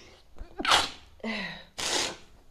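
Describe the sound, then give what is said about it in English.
A person sneezes, a sharp explosive burst after a quick intake of breath, followed by further breathy bursts, loud and alone with no talk. “I am a human being and I sneeze.”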